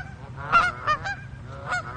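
A goose honks a few loud, nasal calls at irregular intervals over a low, steady background rumble.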